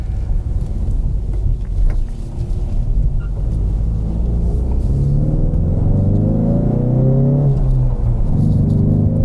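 A 2021 Ford Mustang High Performance with a turbocharged four-cylinder engine of 330 horsepower accelerating hard. Its loud, deep engine drone climbs steadily in pitch, drops briefly near the end, then starts rising again.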